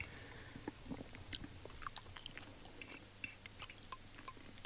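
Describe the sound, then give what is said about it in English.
Chewing of a man eating pasta, with many small, soft, wet bursts and light crunches repeating irregularly at a low, close level, with no talk. “This is man eating pasta.”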